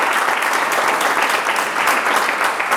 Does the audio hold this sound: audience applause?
yes